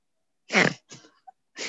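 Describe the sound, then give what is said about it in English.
A man clears his throat in harsh, cough-like rasps: one strong burst, a weaker rasp after it, and a third beginning at the end, with silence between. “It sounded like he had something stuck in your throat.”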